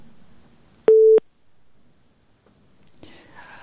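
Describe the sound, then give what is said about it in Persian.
A short telephone tone follows a call being cut off: one brief, steady beep over faint murmuring, then a pause, and a voice begins speaking. “تماس ما قطع شد”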